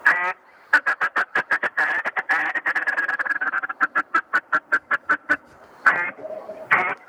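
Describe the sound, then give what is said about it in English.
A blown duck call imitating mallard quacks gives many sharp, rapid nasal quacks in uneven bursts, ending with a few longer, drawn-out calls. “And this is a workhorse of a call. You can go loud with it like you can on the True Grit. You can go nice and soft with it like you can on the Trickster. It does all of the above and beyond. And this is what that sounds like.”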